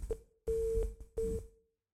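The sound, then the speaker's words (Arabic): A telephone busy tone follows a dropped call: a few faint, evenly pitched electronic beeps in steady pulses separated by short silences. “انقطع اتصال الاخ صالح نكمل كلامنا”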